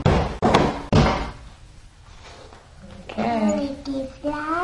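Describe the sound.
Sharp knocking thumps of a hand hitting a folded object, three quick hits in a row at the start, followed by a stretch of quiet and then a person talking.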